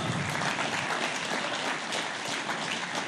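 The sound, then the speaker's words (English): Audience applause: a steady, dense wash of clapping from a crowd, sustained at even loudness for the whole stretch with no pauses. “As he's coming up, why don't you give him a round of applause?”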